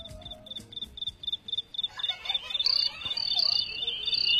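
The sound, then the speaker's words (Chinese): High, rapid chirps repeat at an even pace at the start of a pop song intro. Instruments swell in about halfway through, and the chirping continues over the music. “有鸟叫， 放这首歌多合适”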